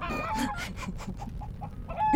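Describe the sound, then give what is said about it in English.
Clucking from a Eustropian fire chicken, a rapid run of many short, faint clucks that grows louder at the very end. “There you go. The Eustropian fire chicken. It's quite the delicacy. Oh shit! Quick, catch it! Catch it before it burns the whole house down!”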